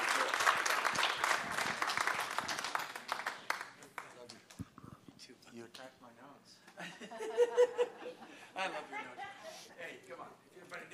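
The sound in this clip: A church audience applauds a welcome for a guest speaker at Harvest Bible Church, a few seconds of lively clapping at the start that fades into scattered voices and light laughter.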